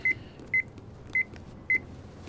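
Electronic keypad beeps as a telephone call is dialed: four short double-pip tones at an even pace, each bright and crisp, alone over a faint low rumble.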